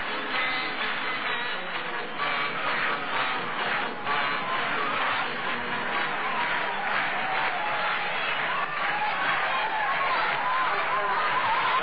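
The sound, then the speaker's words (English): A baseball crowd cheers as a player comes out to bat at a 1973 Chicago Cubs at Philadelphia Phillies game. The crowd noise forms a sustained roar beneath a commentator's steady talk, with a dull, narrow-band tone. “Tommy Hutton coming out. He's getting cheered.”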